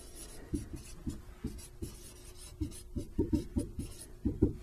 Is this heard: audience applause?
no